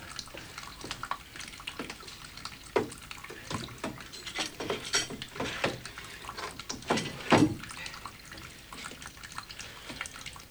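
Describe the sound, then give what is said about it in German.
Water running from a kitchen tap, irregular splashing and dripping with occasional louder gushes, fairly faint, with no talk. “Dreht den Wasserhahn ab.”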